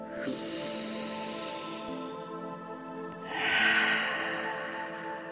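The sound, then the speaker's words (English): A slow, deep breath, heard as two long airy rushes over soft, sustained musical tones, with the second rush louder than the first. “just take just one moment for a deep breath”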